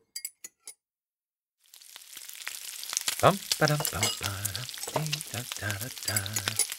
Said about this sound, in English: Dad cooks a big breakfast.